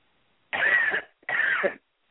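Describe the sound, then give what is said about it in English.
Two deep, forceful coughs, each lasting about half a second and separated by a short pause, with no talking. “Now just take a deep cough and they'll all come out.”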